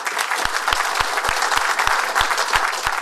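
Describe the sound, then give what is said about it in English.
Audience applause for a guest at the close of a live public talk: dense, steady clapping from a large crowd that stays loud and even for the whole stretch. “Please do join me in giving a big hand to Kate.”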